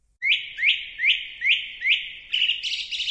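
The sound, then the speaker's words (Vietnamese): A lark singing: five clear, bright whistled chirps, each sweeping upward, repeat in an even rhythm, then give way to a faster, higher fluttering trill. “Tiếng chim hót vang lên, Triệu Phụ Vân”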